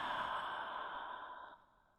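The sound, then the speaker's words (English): A long exhale through an open mouth during a breathing meditation, a soft, steady breathy rush that holds for about a second and a half, then cuts off to near silence. “Inhale through your nose. Open mouth, exhale one.”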